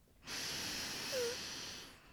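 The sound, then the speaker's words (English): A deep breath drawn in and let out, heard as one long, steady, airy rush of noise lasting about two seconds before it stops. “So let's just close this out with another deep breath.”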